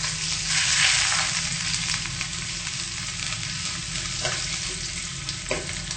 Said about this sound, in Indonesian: Kita tumis sampai harum.